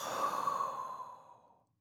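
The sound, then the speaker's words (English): A single forceful exhale during a breathing exercise: a loud, breathy rush of air that starts strong and tapers away over nearly two seconds, heard alone. “deep breath in, force breath out,”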